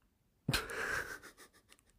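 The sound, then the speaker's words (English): Wheezing through the nose: a single strained, breathy exhale of under a second carrying a thin whistling tone, then a short, softer breathy tail, with no talk around it. “Is it possible to wheeze through your nose? Like, I don't think so. I think wheezing feels like it comes from your throat.”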